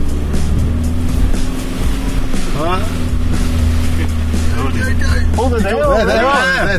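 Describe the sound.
A car engine drones steadily as the vehicle is driven slowly over rocks down a slope in second gear, a constant low rumble with a faint background murmur.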